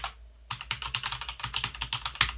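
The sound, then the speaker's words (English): Rapid typing on a computer keyboard while an email address is entered into a form: after a brief quiet start, many quick, crisp key clicks in an uneven, steady rhythm, with no talk. “I will now type my Mushroom FM email address and press tab. Confirm email edit. And type it in again.”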